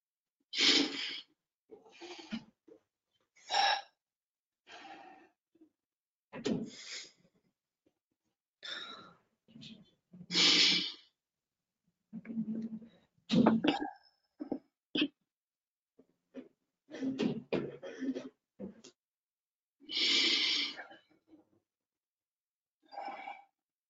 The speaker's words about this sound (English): I'm going to just take three breaths. A good way to go is a quick breath in and then a slow breath out